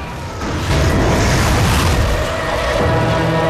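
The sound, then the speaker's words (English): A roaring burst of fire as a bullet hits a computer screen and sends out a ball of flame: a loud, dense, rumbling rush that swells after half a second and holds steady to the end. “This bullet hits a computer screen, sending a ball of flame straight at Bob, which engulfs him.”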